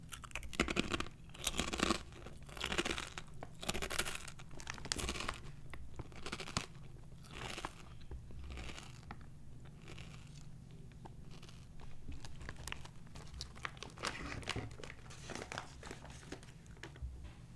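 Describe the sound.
Crunchy snack being chewed, with dense crackling and crunching bites that run without pause for the whole stretch. The chewing is low in level, and no one talks.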